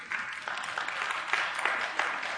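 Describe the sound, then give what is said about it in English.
Scattered audience applause, a thin, weak clap from a church audience, with a soft patter of hands rising and falling for a couple of seconds. “It's not a very good clap, but we'll go with it.”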